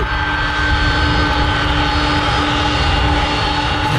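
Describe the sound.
An airplane flying over gives a loud, continuous engine roar with thin, high whining tones running through it. The sound stays steady from start to finish and no one speaks.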